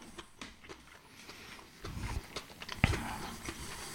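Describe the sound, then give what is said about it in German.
Faint chewing while someone eats a spring roll, irregular soft wet bites and mastication with one sharper crunch later on. “Ich muss kurz meine Frühlingsrolle aufessen. Die ist sehr lecker.”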